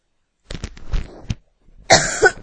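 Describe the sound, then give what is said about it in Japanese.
A person coughing: a cluster of rough, breathy cough bursts, then after a brief pause a louder, harsher cough. “ごめんなさい、咳したけど。”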